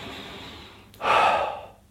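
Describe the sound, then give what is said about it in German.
One deep breath is drawn as a single loud, airy inhalation lasting under a second, after a quieter stretch of soft breathing. “Und nimmst einen tiefen Atemzug”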